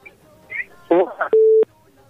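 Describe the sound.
A telephone line on a radio call-in show sounds one steady, mid-pitched electronic tone lasting about a third of a second, right after a burst of brief speech.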